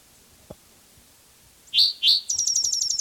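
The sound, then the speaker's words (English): A bird sings two loud, high, sweeping chirps, then runs straight into a rapid trill of many short, evenly spaced, bright notes, with a few faint clicks before the song. “This bird has more songs.”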